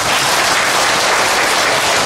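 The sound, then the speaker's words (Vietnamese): An audience at a Buddhist dharma talk applauds, the clapping a steady, dense wash that stays loud and even without a break. “Nếu chúng ta vỗ tay, chúng ta tán thán, chúng ta đồng ý”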